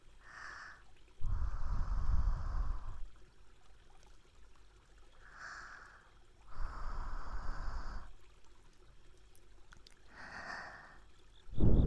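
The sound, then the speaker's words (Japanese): Breath blown onto an object to clean it: soft, rushing puffs of air separated by quiet pauses, with two full blows and a third cut short at the end. “最後は息を吹きかけて、”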